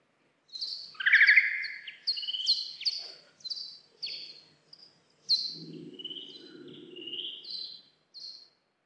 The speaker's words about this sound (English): So that was a bat. That was bat ultrasound recorded above your hearing range, but slowed down so you could hear. So that was an advertisement call from the peak of the mating season.